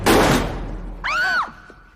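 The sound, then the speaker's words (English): A single gunshot opens with a sharp, loud bang that fades quickly. A brief tonal, wavering sound follows about a second later. “Vando shoots Richie, who's wearing a bulletproof vest.”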